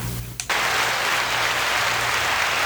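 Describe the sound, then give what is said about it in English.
An applause clap track: after a brief lead-in, dense, steady clapping swells up and continues evenly for about two seconds. “I just put the clap track on.”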